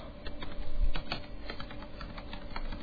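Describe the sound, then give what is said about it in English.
Rapid typing on a computer keyboard while entering a move in a computer board game, with many quick keystrokes in a steady, uneven patter throughout and no voices. “So if I just type in here, you're on air.”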